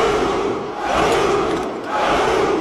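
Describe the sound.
About a thousand soldiers shout a battle cry in unison, a massed, roaring chorus of voices that swells in repeated surges with brief slight dips between them, loud and full throughout.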